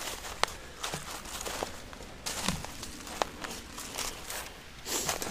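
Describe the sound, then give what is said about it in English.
Footsteps of someone walking through woods, a run of irregular soft footfalls, moderately faint, over a steady outdoor hiss with no talking. “And as you could hear, I decided to take a walk through the woods and found myself, wow, at a waterfall.”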